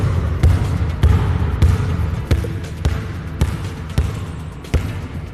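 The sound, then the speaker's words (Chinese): A basketball dribbled during a training drill, a steady series of dull, low bounces about every half second, each thump landing evenly over a continuous background noise. “它不是低手运球，它不是低手运球， 对， 挡住， 你在运球的过程中不能球眼睛一直注视你的球，你也得注视你的旁边的人”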